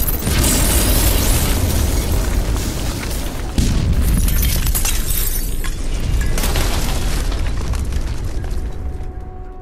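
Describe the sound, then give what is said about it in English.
A thermal detonator explosion effect for a science-fiction audio drama: a loud, dense roaring blast that rumbles steadily for nearly ten seconds, surges again partway through, and thins only slightly at the end. “He rolls a silver ball into the alley full of used sex bots. A thermal detonator, Earl says, as the droids begin to protest. Then... boom!”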